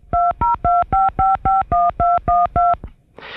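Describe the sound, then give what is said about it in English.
Touch-tone dialing from a Braille Mate's built-in speaker: ten evenly spaced beeps of varying pitch in a quick, steady rhythm, followed by a brief hiss. “if you're ever in a situation where you want to go ahead and let the Braille Mate dial for you, that noise, the touch-tone dialing, will actually come out of the speaker.”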